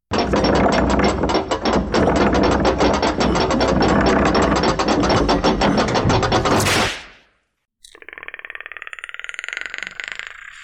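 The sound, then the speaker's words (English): A spinning prize wheel clicks rapidly, with loud, dense ratchet-like ticks for about seven seconds. They stop abruptly, and after a short gap a buzzing tonal sound follows. “Let's see what comes out. Let's spin the wheel of pain.”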